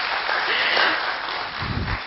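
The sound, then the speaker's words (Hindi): Audience applause at a lecture, dense clapping from many hands, loud and steady for the whole stretch. “तो एक बार जोर से तालियां बजाएंगे प्रेम भाई के लिए।”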